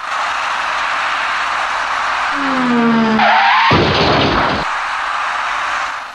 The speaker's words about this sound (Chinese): 驾驶这辆厢式货车的司机虽然看到红灯之后采取了减速停车的措施，可是驾车跟在后面的这位白色小客司机却没有注意到前车减速